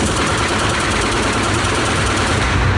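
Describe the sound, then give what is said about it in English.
A Glock 18C machine pistol fires on full auto, a dense, continuous rattle of rapid shots blurring into one loud, unbroken roar across the whole clip, with no talk. “So this is a Glock 18C machine pistol. This fires about 11 rounds, so it's pretty crazy.”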